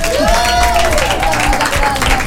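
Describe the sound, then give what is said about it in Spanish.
Audience applause at a live event where performers are introduced one by one, a dense steady wash of clapping with crowd voices mixed in. “Ahí estamos, un aplauso.”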